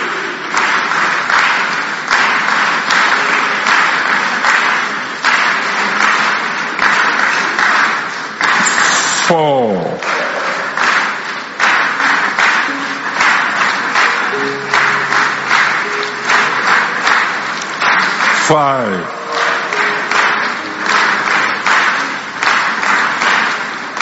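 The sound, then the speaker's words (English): Audience clapping runs continuously for about twenty-four seconds, a dense, steady wash of many hands with voices mixed in throughout. “Keep clapping, they are coming.”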